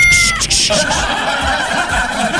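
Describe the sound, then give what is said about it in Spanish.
A newly adopted cat lets out loud, drawn-out meows that waver in tone, rising over a low background rumble. “Ese es mi gato, tenemos un nuevo gato acá”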